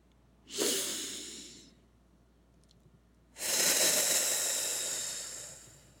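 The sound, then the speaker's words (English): A deep full-body breath drawn down into the belly, heard as two long, airy breath sounds. A shorter one is followed after a quiet pause by a louder, longer, fuller one that slowly fades, with no voices. “try to get that down into the belly so that it's more of a full body breath. All right, so let's get into five breaths.”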